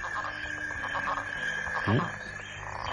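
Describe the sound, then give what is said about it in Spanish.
Frogs croak amid a steady high-pitched trill of crickets in the jungle at night; repeated pulsing croaks run over the constant insect drone, with one louder, lower rasping call near the middle. “Ahí hay grillos, aquí ranas. Hay grillos, hay ranas.”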